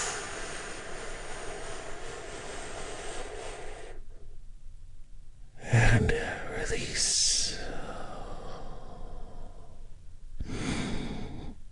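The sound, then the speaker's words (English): A deep breath taken during a guided relaxation exercise: a slow, breathy inhale and sigh-like exhale rising out of a soft hiss, with a brief lull before it and another breath near the end. “Join me in taking a big, deep healing breath.”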